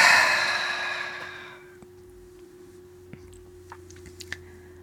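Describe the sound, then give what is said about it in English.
A long, deep breath out during a guided breathing exercise, a loud breathy rush that fades over about two seconds into near silence, followed by a few faint clicks. “Then take a nice deep breath in. Hold it And with the intention of totally releasing those attachments, breathe out.”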